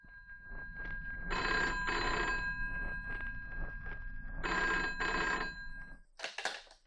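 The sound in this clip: A telephone bell rings in a house in two long trilling bursts separated by a pause, over a steady low hum.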